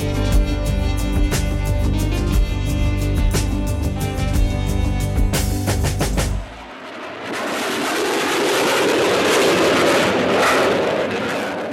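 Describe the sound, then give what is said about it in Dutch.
Fighter jets fly low over a hijacked train stopped in a meadow near De Punt, Drenthe, in 1977. A loud, droning engine tone with rapid pulsing gives way to a broad, rushing roar that stays loud to the end. “Ja, dit is het geluid van 40 jaar geleden. Straaljagers die laag overvlogen boven een gekaapte trein.”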